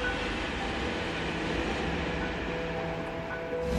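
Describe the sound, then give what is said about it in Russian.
A train speeds along its rails with a loud, steady rumbling roar and a faint high whine running through it, continuous for the whole stretch with no voices. “По рельсам мчится поезд.”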